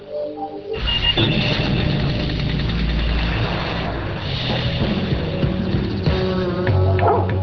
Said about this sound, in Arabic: صدقوا أن الكلب كودي يستطيع نطق 12 كلمة. هيا قل مرحبا. قل شكرا.